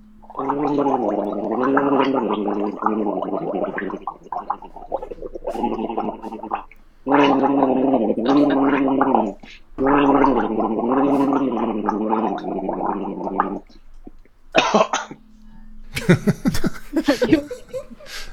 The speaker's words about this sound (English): Let's hear what he had to gargle.